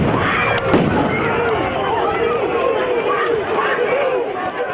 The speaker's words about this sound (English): authorities basically began clearing the protests using tear gas, using flash grenades, and the scene very quickly devolved into mayhem